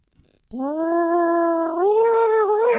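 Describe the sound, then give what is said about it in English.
A voice imitates a cat caught in a blender: one sustained, harmonic yowl that climbs higher partway through and turns rougher and more strained toward the end, loud and alone. “Oh, that was a cat in a blender.”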